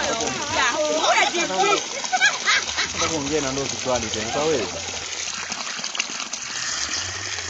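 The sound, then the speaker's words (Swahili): Water gushes from household taps in Kibondo town after a week-long supply cut, a strong continuous splashing rush with voices talking over it. “Kipindi hiki kimeshuhudia maji yakitoka kwenye mabomba.”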